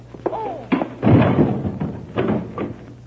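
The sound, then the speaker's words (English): A few dull thuds from a blow to the back of a man's head with a gun, heavy and short, with a broad muffled burst in the middle. “I'll slug him with my gun.”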